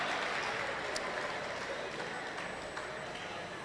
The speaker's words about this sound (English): Keep clapping your hands.